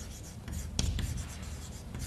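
Handwriting an equation: a steady, scratchy rasp of continuous strokes with one sharper tap partway through.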